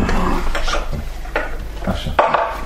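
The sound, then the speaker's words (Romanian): A vessel is set down on a table, a few hard dish-like knocks and clatters with light handling scrapes, fairly loud and with no talk. “Pune vasul pe masă.”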